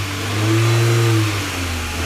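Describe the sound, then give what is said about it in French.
A Citroën Traction car starting and driving off: a steady mid-pitched engine drone over a low hum that swells for about a second and then eases slightly, with no voices. “La traction démarre alors que 2 camions de soldats allemands arrivent.”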